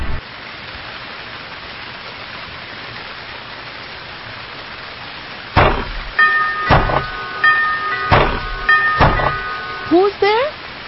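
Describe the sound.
Steady rain at night, a soft, even hiss heard alone for about five seconds, then continuing under people talking.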